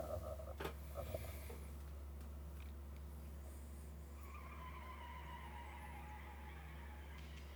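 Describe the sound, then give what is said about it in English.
A tire squeal opens a wrestler's entrance theme: a long, screeching tone that slides gradually downward in pitch, fairly faint over a steady low hum, after a few brief clicks at the start. “So I'll tell you why I hesitated there, because there's another one that starts with a tire squeal like that.”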